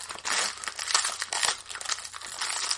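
Crinkling and tearing of a wrapper as a pack of 1991-92 Pro Set hockey cards is opened, a steady, busy crackle of foil-like rustling that runs unbroken with no voices.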